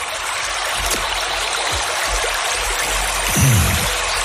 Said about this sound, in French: L'eau qui coule.